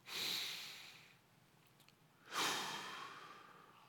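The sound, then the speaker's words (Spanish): A deep, slow breath: two long, soft, airy rushes of breathing separated by a quiet pause, the second sighing and gradually fading. “Tome un respiro. Tómese un momento para respirar.”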